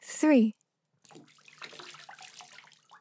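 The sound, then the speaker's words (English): Water splashing over a child being rinsed in a bathtub follows a brief high voice and a short pause, then runs as a steady, moderately loud wash of noisy splashes for about two seconds. “Let's get you all rinsed off and then you can come out. Close your eyes.”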